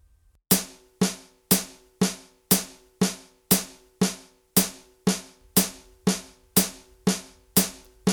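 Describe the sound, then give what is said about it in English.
Eighth notes in a rhythm demonstration, two to each beat, come as a steady run of many bright, sharply struck hits. They repeat about twice per second, and each hit fades quickly before the next one. “Every quarter note is going to split into 2 eighth notes, so that gives us 2 notes for every 1 beat, and they sound like this.”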